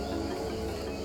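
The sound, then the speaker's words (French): Steady insect chirring, as from crickets, fills a greenhouse tunnel: a continuous, unbroken drone with a dense high buzz layered over a low hum, alone and without voices. “le son d'une serre. C'est à l'intérieur, dans ce tunnel.”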